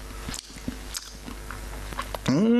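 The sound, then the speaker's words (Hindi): Wet chewing and biting on a sandwich, a few soft, irregular mouth noises at low level with a brief louder tonal sound at the very end. “और लो ये sandwich खाओ, प्रथम ने बनाए हैं”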